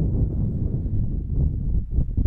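Wind blows across an outdoor high school softball field during a Marine City vs Fraser game, buffeting the microphone. It makes a steady, low rumbling roar with uneven gusts and no clear breaks.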